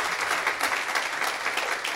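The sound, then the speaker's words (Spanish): Applause from a workshop audience welcoming a participant, a dense wash of clapping at moderate, even loudness that continues unbroken for the full two seconds. “Vamos a dar un aplauso a Keila.”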